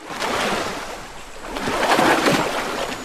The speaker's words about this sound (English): One of the elephants kicks up huge sprays of muddy water as it frolics about.